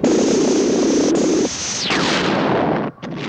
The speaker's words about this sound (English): fire again. Intensify power. Okay, firing. Now, fire!